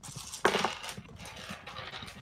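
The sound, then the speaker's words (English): A bagful of dice spilling out at once, a sudden burst of clattering clicks and rattles that trails into a few scattered smaller taps before fading. “That was much more than one die. Well, I was emptying out my bag.”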